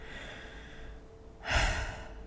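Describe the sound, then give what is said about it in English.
A single deep breath drawn in, a brief airy rush lasting under a second that rises out of quiet background noise partway through, with no talking. “I want you to take a deep breath with me.”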